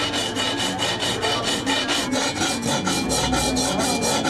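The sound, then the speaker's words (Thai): Steady rasping of a hand file worked across a piece, with quick, regular back-and-forth strokes that run loud and continuous throughout, without voices. “งานตะไบนี่เป็นงานมือนะคะใช้เวลาประมาณ 2-3 ชั่วโมงต่อ1ชิ้นนะคะ”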